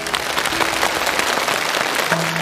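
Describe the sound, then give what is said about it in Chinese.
Audience applause welcoming a young guzheng student to the stage of a Chinese poetry competition show: dense, steady clapping that holds at an even, fairly loud level throughout with no voices over it. “来，掌声欢迎。”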